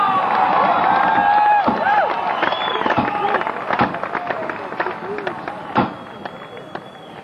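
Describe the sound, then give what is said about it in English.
Crowd cheering and applauding to welcome a Chicago blues act, a dense, loud roar of clapping and shouts with sharp claps standing out, easing slightly toward the end. “Ladies and gentlemen, welcome. Mighty Guy. And Junior Wells. Give him a big welcome.”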